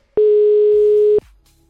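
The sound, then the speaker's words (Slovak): Ringback tone from an outgoing phone call to a listener: a single loud, steady electronic beep lasting about one second, then a faint low murmur. “Voláme práve v tomto momente.”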